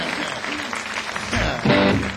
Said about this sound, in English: Please put your hands together for yourselves one time.